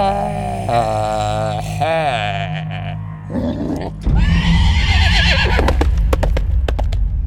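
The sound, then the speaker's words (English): A unicorn in a video game lets out a loud, wavering neigh, then a harsher roaring cry, followed by noisy galloping with sharp hoofbeat clicks as it runs off. “The mysterious stranger gallops away on his ugly unicorn”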